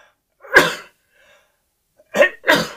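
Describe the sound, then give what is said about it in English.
Three loud, abrupt human sneezes: one explosive burst, then quiet, then two more in quick succession. “Excuse me, that was a sneeze, not a cough.”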